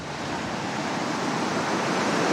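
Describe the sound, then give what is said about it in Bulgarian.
Stormy, dangerously rough sea with heavy swell pounds the beach at Harmani as a loud, continuous roaring wash of surf that builds slightly over about two seconds, with no voices. “Първо искам да ви покажа колко е бурно морето.”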